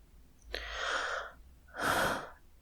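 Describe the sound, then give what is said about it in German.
Heavy breathing close into a microphone: two separate breaths, a shorter soft one followed by a stronger, louder airy exhale about a second later, both hissy and breathy against a quiet background, with no speech. “Ich atme schon wieder sehr viel in diesem Podcast.”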